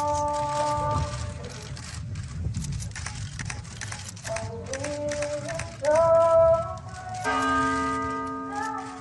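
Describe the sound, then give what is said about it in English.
Church bells toll at a funeral, several clear ringing strikes whose long sustained tones overlap and hang in the air, with a low rumbling background underneath. “That was the sound of a funeral.”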